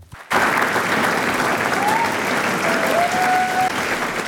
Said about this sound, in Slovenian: Stoječimi ovacijami je občinstvo, ki je dodobra napolnilo dvorano v Kosovelovem domu, nagradilo igralce, pevce in glasbenike, ki so na odru interpretirali Kosovelovo poezijo.